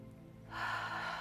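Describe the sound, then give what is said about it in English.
A single deep inhale through the nose during a bedtime breathing exercise, a soft, steady breathy hiss that starts partway in and swells, heard alone without talking. “Inhale through your nose,”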